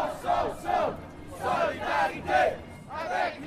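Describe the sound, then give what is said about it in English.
Crowd of about 5,000 protesters marching through Montreal, chanting together in loud, rhythmic bursts of massed voices that rise and fall several times in a steady cadence. “This is the sound of international solidarity in Montreal on Thursday, November 22nd. About 5,000 protesters marched from Square Victoria yesterday”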